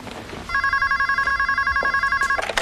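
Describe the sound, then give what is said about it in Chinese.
A telephone rings with a bright, rapidly pulsing electronic trill that starts after a brief stretch of quiet background noise, then repeats evenly for about two seconds before cutting off. “我先接个电话”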